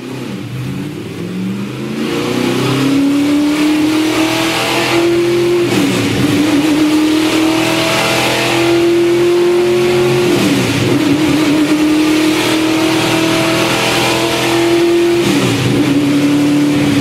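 Race car engine revving on a track, loud and sustained. Its pitch climbs steadily, drops briefly at a few gear changes, then climbs again.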